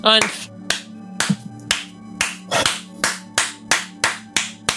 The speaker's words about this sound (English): The slow clap only works when other people do it.